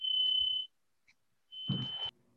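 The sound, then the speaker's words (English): A smoke or fire alarm beeping: two long, steady, high-pitched electronic tones separated by a short silence, with some faint low noise under the second beep. “I think that's my fire alarm. Is that your fire alarm? That's yours.”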